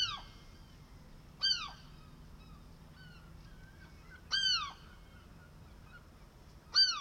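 A bird squawks on a house roof, giving three harsh, faint calls spaced a few seconds apart. Each is a short cry bending downward in pitch over a quiet, low background.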